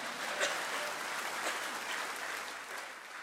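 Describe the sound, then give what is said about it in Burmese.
Congregation clapping hands in praise during a church sermon, a sustained, thick round of applause at a steady, fairly strong level that eases slightly toward the end, with no clear speech over it. “လက်ခုပ်တီးလက်ဖျားကိုချီးမွမ်းရအောင်”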